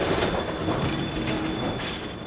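New York City subway train, the 6 train running south from Pelham Bay Park in the Bronx: a loud, continuous rumble and rattle of the cars with a thin, steady high whine running through it.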